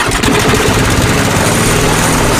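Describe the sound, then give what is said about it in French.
A lawn mower engine runs loud and steady, a dense, rough drone that holds without any pause. “Marre de tondre ? Tondeuse des 299€, autoportée des 1499€ et robot tondeuse à partir de 1199€.”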